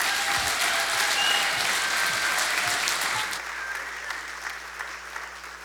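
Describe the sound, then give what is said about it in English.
A church audience claps to welcome a pastor to the stage: thick, even applause for a few seconds that then thins and fades away. “would you put your hands together and extend a very, very warm Rev City welcome to Pastor Eli Brooks?”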